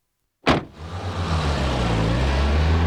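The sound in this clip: A taxi pulls away to chase another car: a sharp burst opens into a loud, steady, low engine rumble that holds to the end, with no voices.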